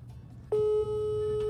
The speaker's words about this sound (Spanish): A ver, ahí está sonando, pero no nos contesta Frank.